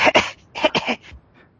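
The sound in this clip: A few short, harsh coughs in two quick clusters from a player during a tabletop role-playing game session, the second cluster slightly longer, followed by near silence.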